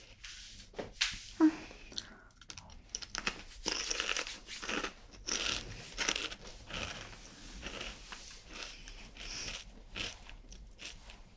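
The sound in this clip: Crunchy snack being bitten and chewed, with many crisp irregular crunches and moist chewing sounds repeating close together throughout.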